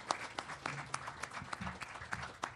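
Audience applause welcoming a guitarist to play, a fairly faint patter of scattered hand claps that continues steadily throughout.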